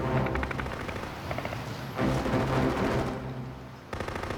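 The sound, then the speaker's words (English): Heavy machine-gun and artillery fire, 50 caliber or bigger, from a sustained attack lasting all morning: dense, loud bursts of rapid shots that run almost without pause, with the firing thinning only briefly before resuming. “They've been spraying the hell out of us all morning, and they got some kind of heavy artillery, 50 caliber or bigger.”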